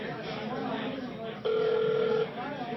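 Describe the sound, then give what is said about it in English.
A telephone call is placed amid chatter, and a single steady electronic ringing tone sounds for under a second midway through while people talk in the background at a party. “Call John Byrne.”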